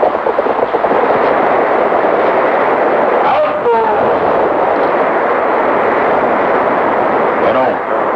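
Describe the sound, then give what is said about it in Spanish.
Steady, dense roar of a waterfall pouring its water into a river deep below, a continuous loud rushing wash with no breaks. “todos se encaminan hacia una cascada que vierte sus aguas sobre un río sumido en las profundidades.”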